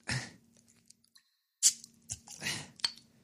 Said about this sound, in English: And then you take the Modelo, and then you open that up. Now we open this.